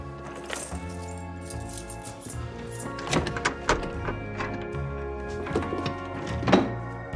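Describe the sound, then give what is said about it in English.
A few dull thunks, likely a hand grabbing and turning a door handle outside a room, sound under continuous music, with the clearest knocks in the second half. “He grabs an item from the doorframe, then reaches for the handle.”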